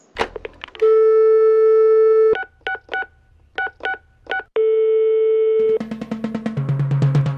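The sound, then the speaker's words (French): A short radio-show jingle built from telephone sounds: a long steady tone, a run of quick keypad beeps, a second long tone, then a rising, pulsing electronic phrase that closes it out. No one speaks. “Alors, on envoie un petit jingle pour voir, pour qu'on puisse retrouver le stand.”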